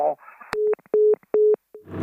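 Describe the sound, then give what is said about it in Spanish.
Telephone busy tone after a call drops: about three steady, mid-pitched beeps evenly spaced and followed by a fainter short pulse, with brief voice fragments just before and after. “Se ha colgado la llamada.”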